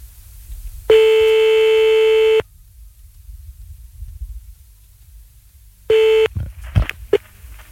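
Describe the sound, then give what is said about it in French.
Telephone tones while calling back: a loud, steady, mid-pitched tone holds for about a second and a half, then silence, then a shorter tone and a few brief beeps and clicks. “Bon, on le rappelle. Enfin, on la rappelle.”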